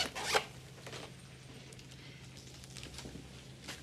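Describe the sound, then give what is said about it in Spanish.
A zipper is pulled as someone opens a bag, one quick rasping burst at the start, followed by faint rustling and soft handling noises. “Él abre una cartera.”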